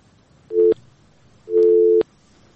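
A telephone busy tone sounds after a call is cut off: two steady, low-pitched beeps of about half a second each, with silence between them.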